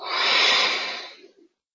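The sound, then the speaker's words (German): A single slow, deliberate exhale from a chakra breathing exercise, a soft airy hiss that swells quickly and then fades away over about a second, leaving silence. “Ich atme ganz bewusst von unten nach oben ein, in der räumlichen Mitte des Körpers. Und atme über das Wurzelchakra aus.”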